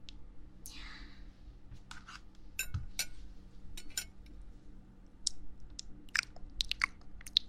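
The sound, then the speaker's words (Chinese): Soft crunchy biting and chewing of food, quiet and close, with scattered crisp snaps and an occasional faint clink between the bites. “好了，主人先吃点东西吧。”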